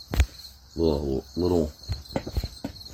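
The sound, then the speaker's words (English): Crickets chirp in the early morning while the stars are still out, a steady high-pitched trill running through the whole clip with a few brief louder sounds over it. “little refreshing to hear the crickets chirping in the morning, the stars still out.”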